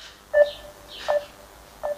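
Telephone keypad tones from a number being dialed, as a man tries to call his father in Ukraine: three short, clear two-tone beeps, spaced apart and moderately loud over quiet background hiss.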